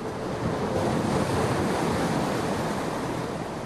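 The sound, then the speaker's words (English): Ocean waves wash in a steady, dense roar of surf, with wind noise blended over it and no single break standing out from the continuous rush. “you swing into a turn, the edge of your surfboard cutting into the swell, and project yourself, falling, sliding ahead of a curling wave”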